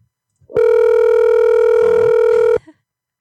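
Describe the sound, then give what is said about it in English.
An outgoing phone call's ringback tone: a single loud, steady ring lasting about two seconds, buzzy and rich in overtones, beginning and ending abruptly with silence on either side. “Yeah, a lot of people do come to this show because they're like, man, I love the way that that phone rings.”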